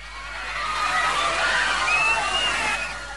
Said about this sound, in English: Water floods in through one set of doors still open. The doors finally close and the flow of water slows.